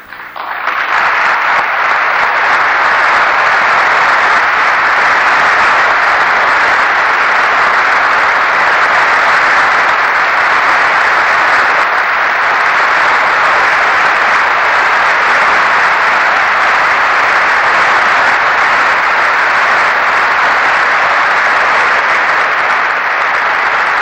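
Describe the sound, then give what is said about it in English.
Audience applause fills the whole stretch, a steady, loud wash of many hands clapping that holds at an even level from start to finish without any voices on top. “I have to say that that's very welcome applause.”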